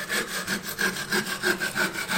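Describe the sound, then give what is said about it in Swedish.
Wood being sawn by hand with steady back-and-forth strokes: a rasping scrape repeating in a quick, even rhythm of many strokes, fairly loud and alone with no voices. “Att såga.”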